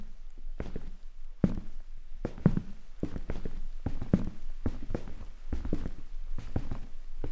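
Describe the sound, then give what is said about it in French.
Footsteps climbing the stairs of a two-storey house: many dull, thumping steps at a steady walking pace, heard alone without talk. “Vous me faites visiter ? Bien sûr, suivez-moi l'escalier par là.”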